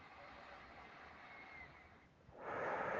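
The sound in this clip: Slow human breathing during a guided meditation: a soft, airy breath drifts for a couple of seconds, dips briefly, then a louder, fuller breath swells at the end.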